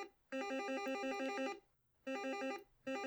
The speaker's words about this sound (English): you wake because your communicator, in your goggles, it's ringing.